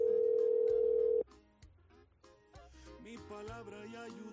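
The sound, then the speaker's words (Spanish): A telephone ringing tone sounds as a single steady, loud beep for just over a second and then cuts off abruptly, followed by quieter mixed tonal sounds. “Suena, suena, Pablo, contesta.”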